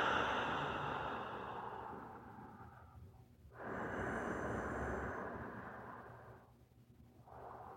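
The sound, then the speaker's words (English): Deep breathing during a guided meditation: long, soft rushes of air swell and fade twice, and a third breath begins at the end, faint and unhurried, with no talking. “So taking another deep breath.”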